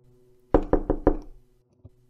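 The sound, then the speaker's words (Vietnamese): Urgent knocking on a house door: four loud, quick raps in a fast even rhythm, then a single fainter knock after a short pause. “nghe tiếng gõ cửa dồn dập ở bên ngoài”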